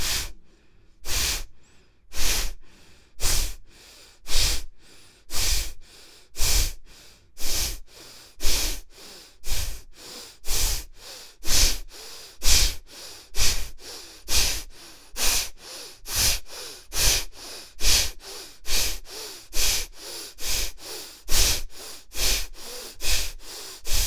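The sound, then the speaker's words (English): Forceful exhaled breaths from a guided breathing exercise, many sharp, breathy bursts repeating in a steady, even rhythm, each one loud and airy with no talking between them. “Exhale, exhale, exhale, exhale, exhale.”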